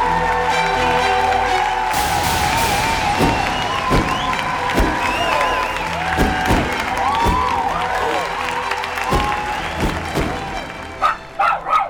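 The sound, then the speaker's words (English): An arena audience applauds and cheers as a comedian walks on stage: a dense crowd roar with rising whoops and sharp bursts, easing off toward the end. “ladies and gentlemen, put your hands together and welcome Harrison Greenberg!”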